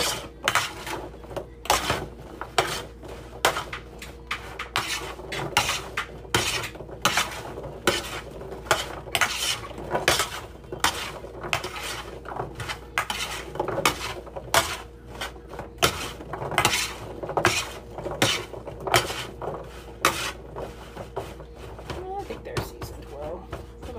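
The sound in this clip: A spoon stirring food and coating it in a pan, with many irregular metallic clinks and scrapes against the pan that keep going the whole way through.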